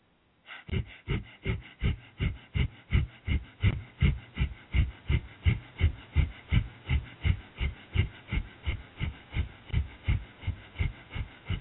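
Rapid, rhythmic breath-of-fire breathing exercise: many forceful, evenly spaced breaths pulse steadily at a quick, unbroken tempo for the whole stretch, with no talk.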